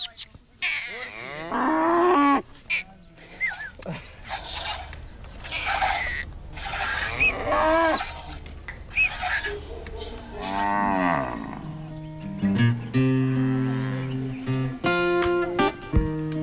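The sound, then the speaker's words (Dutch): Cattle in Nigeria moo again and again as a milker calls them to come over, with many long, harmonically rich bellows of varying pitch following and overlapping one another throughout, some deep and drawn out, others higher and more strained. “De melker lokt de koeien en de koe komt naar hem toe.”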